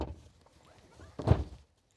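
A hinged bed panel folding out accordion-style, heard as a faint rustle followed by a single dull thunk near the end, then silence.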